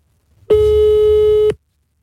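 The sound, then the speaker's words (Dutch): A single steady tone from an outgoing phone call sounds for about one second, a flat, loud beep that starts and stops abruptly. “Dan moet het geluid uit, want ik bel hem dan nu met mijn telefoon.”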